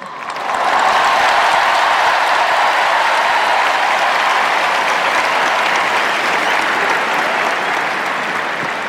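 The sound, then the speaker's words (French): A large crowd roars for the Pope at the Stade de France, a dense, continuous wall of cheering voices and applause that swells in the first second and then holds loud and steady throughout. “la foule du Stade de France qui scande le nom du Saint-Père.”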